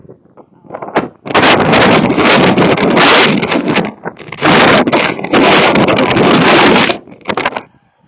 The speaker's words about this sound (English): Come into the small park where there's more open space because it was the wind through the trees that's really loud.